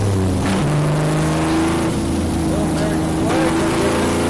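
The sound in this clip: Engine of a beat-up car driving through, a loud, steady rumble with shifting, uneven engine tones that hold for the whole stretch.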